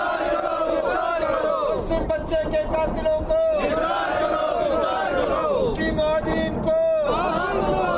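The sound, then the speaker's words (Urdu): Protesters chant slogans at a demonstration held with the body of a kidnapped and killed student. Many raised voices shout in unison, loud and continuous, in rhythmic bursts that swell and repeat. “مظاہرے کے شرکا نے اپنے مطالبات کے حق میں نعرے بازی کی۔”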